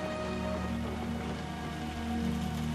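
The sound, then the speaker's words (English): Rain falls in a soft, even patter, faint and continuous, with low sustained tones humming beneath it. “that the rain sounds like footsteps. Yes, how clever you are. Thousands of footsteps.”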